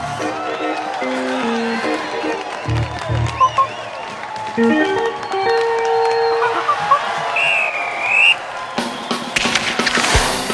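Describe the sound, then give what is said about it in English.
A crowd cheers at a hockey game, a continuous roar of many voices with sustained musical tones, a high whistle-like sound and scattered sharp knocks rising in the final seconds. “Oh, the crowd is going bananas! Jack takes the face-off. Don't worry, Jack, all right? They're all cheering for you.”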